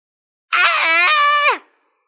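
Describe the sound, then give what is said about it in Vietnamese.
A man's pained scream, one sustained, strongly voiced cry of about a second, loud and alone, its pitch dropping sharply as it breaks off. “Phượng Thiên Tiên Sứ gào thét một tiếng, trong lòng càng phẫn hận tới cực điểm.”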